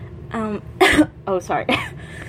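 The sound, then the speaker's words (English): A person clearing their throat and coughing: a short voiced grunt, then a few rough, harsh bursts in quick succession, fairly loud against a quiet background. “Just like got something caught in my throat.”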